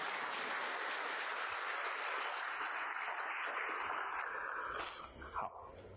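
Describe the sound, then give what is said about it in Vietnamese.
An audience applauds to thank a fellow practitioner after a handshake demonstration, producing a soft, steady patter of clapping that continues evenly, then thins out and dies away near the end. “Chúng ta vỗ tay cảm ơn vị sư huynh này đi.”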